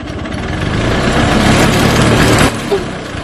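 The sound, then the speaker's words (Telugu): Auto rickshaw engine approaching: a buzzing, rattling small-engine drone that swells slightly louder, then drops off sharply for the last second. “ఏదో auto వస్తుంది, ఆపండి రా ఆటోని.”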